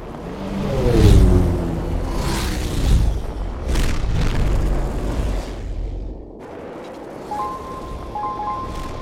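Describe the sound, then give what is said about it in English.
Racing rovers roar past a holographic checkpoint on Mars in heavy booming whooshes, their rumbling tones sweeping in pitch as they pass. The noise eases near the end, where a few faint high beeping tones appear. “Oh, a bunch of rovers just cleared another holographic checkpoint here in the middle of Mars nowhere.”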